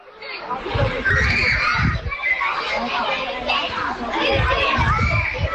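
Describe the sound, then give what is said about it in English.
Children laughing, shouting and chattering as they play in a primary school playground in a seaside town in Ireland, a loud and constant mix of many young voices. “That sound you can hear is children laughing and playing in the playground at St Patrick's National School.”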